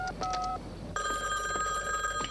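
A telephone call placed from a phone booth to a house: a few short electronic beeps at shifting pitches, a brief pause, then a bright, steady electronic ringing tone that runs to the end with no voices.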